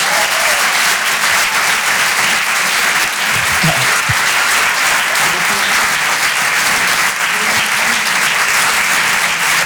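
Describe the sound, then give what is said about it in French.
An audience applauds at a comedy club, with loud, dense clapping that carries on steadily through the whole stretch without a break. “Allez, on peut l'applaudir très fort.”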